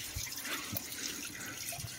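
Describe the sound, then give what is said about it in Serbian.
Water running from a tap, a steady, faint hiss with soft splashing texture throughout, no voices. “A vidi, voda teče. Čuje se. Zvuk vode koja teče.”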